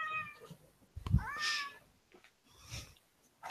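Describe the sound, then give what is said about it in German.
A cat meows a couple of times. The meows are fairly faint, mid-pitched and drawn-out, with quiet gaps between them. “Ich finde es übrigens schön, dass wir auch unsere eigene Streamkatze haben.”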